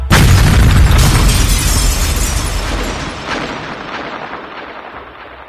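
A loud explosion bursts with a heavy, deep boom that fills the sound at once, then rolls into a long, rumbling decay that slowly fades over several seconds. No voices are heard.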